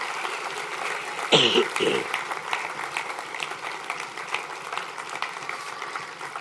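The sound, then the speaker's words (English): A church audience claps for a newly recognized youth pastor: a loud burst of clapping opens, then dense, steady applause carries on to the end. “let's just put our hands together and congratulate him for that.”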